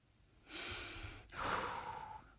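Two deep breaths, one long drawn inhale followed by one long slow exhale, soft and airy, with no talk.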